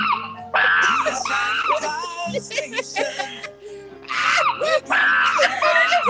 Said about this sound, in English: When I do the chimpanzees yelling?